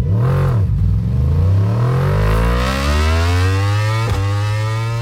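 A motorcycle engine revs hard as a rider sets off at a two-wheeler event. Its loud, harmonic whine dips briefly, then climbs steadily in pitch, with a short break near the end.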